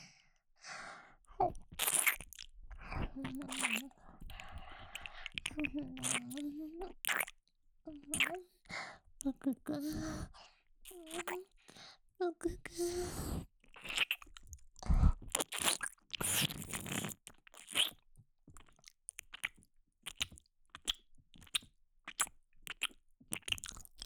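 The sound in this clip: Wet mouth sounds of nibbling, licking and eating at an ear: many short crunchy clicks, smacks and squishy bites in an uneven rhythm, with soft breathy sighs and quiet voiced moans between them.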